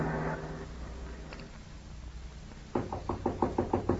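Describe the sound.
Knocking on a door: a rapid series of sharp, fairly loud raps starts near the end and follows a quieter, murky stretch of low sound.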